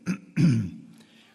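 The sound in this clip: A man clears his throat during a sermon with a short rough grunt and then a longer, deeper rasping clear, low-pitched and fairly loud, with no words spoken.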